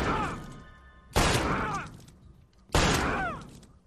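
Gunshots fired in a video game: three loud, sharp blasts, each followed by a long decaying tail, spaced roughly a second and a half apart.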